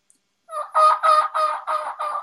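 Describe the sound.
A wild turkey call is imitated during turkey hunting: a string of six nasal, evenly spaced yelps, the first softer and the rest loud, heard alone.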